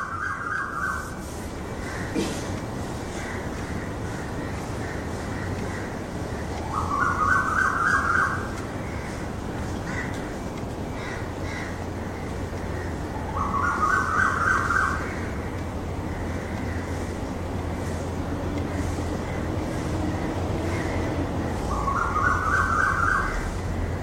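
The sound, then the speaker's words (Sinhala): A vehicle reversing sounds repeated bursts of electronic beeping, four of them spaced roughly seven seconds apart, over a steady outdoor background with faint bird calls. “දැන් අපි බැලුවත් කුරුල්ලන්ගේ ශබ්දේ වාහනයක් reverse කරනවා මොකක් හරි කාක්කගේ ශබ්දේ”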